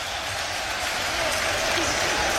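Football fans in the away section at Eindhoven celebrate their team's 5-1 defeat, a dense, continuous roar of cheering crowd noise that holds steady throughout.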